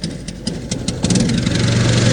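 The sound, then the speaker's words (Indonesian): Engine of a small klotok motorboat built from ironwood, running with a steady low hum and chugging rumble that grows a little louder after the first second and continues evenly to the end. “saat ini saya sudah berada di atas kelotok yang terbuat dari kayu ulin ya, cukup kecil”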